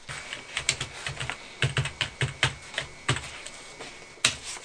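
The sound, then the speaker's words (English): Fingers click and tap across a computer keyboard during an online search, with many quick, irregular keystrokes and brief pauses between bursts. No one speaks. “Just talk among yourselves while I click, click, click here.”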